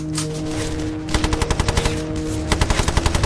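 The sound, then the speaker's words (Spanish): A Bren machine gun fires for a war documentary: two loud bursts of rapid, evenly spaced shots, the second after a short pause, over a low steady hum. “Tenía una ametralladora. Si lograba disparar, podría salvarse. No tenía nada más y el enemigo se acercaba. ¿Qué podía hacer? Tenía que intentarlo, tenía que tirarse al suelo y disparar.”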